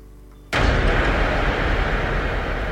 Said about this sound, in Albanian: YouTube, sound explosion, ose bomb sound effect.